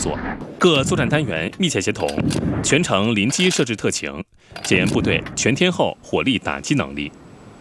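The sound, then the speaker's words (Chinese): Artillery and other weapons fire during an army brigade's multi-weapon live-fire assessment. Sharp blasts come at intervals beneath continuous spoken narration. “由陆军某旅组织的全要素多火器实弹射击考核也正在火热进行”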